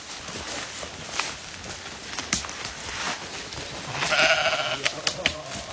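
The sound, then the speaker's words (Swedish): A sheep on a summer mountain sheep farm gives a single short, wavering bleat amid steady outdoor noise and a few soft thumps. “det är ju får här. Alltså det finns folk som är här på somrarna fortfarande. Vi har 2 familjer som har fårskötsel här, fårbönder.”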